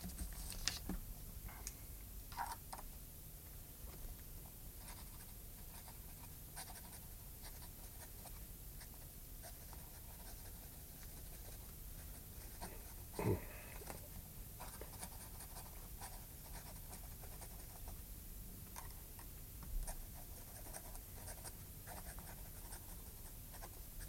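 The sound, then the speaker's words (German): A pen scratching on paper as a condemned prisoner writes his last letter to his mother in a cell: faint, continuous scribbling with a few slightly louder ticks and strokes. “Und den letzten Brief? Schreiben Sie noch hier. Dazu brauche ich nicht lange.”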